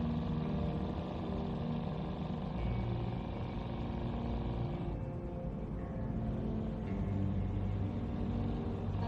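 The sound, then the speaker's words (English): A classic purple muscle car with white fins driving along a dark single-lane highway at dusk gives a steady low engine rumble and road noise that hold constant throughout, with no talk. “He speeds out of the lot in the muscle car, wearing a determined look. He drives on a dark single-lane highway at dusk.”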